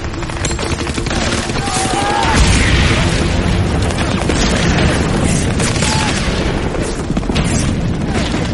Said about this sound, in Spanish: El torpedo Bangalore tenía un tubo largo con cargas enormemente eficaces en su interior. Producía un estruendo tremendo.